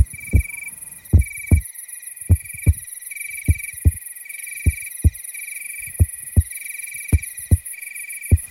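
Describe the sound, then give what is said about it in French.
A heartbeat thumps in many paired, low, dull beats at a slow, even rhythm, with a faint, steady high-pitched tone running behind it throughout. “Écoute. Ça fait comme ça un cœur qui bat.”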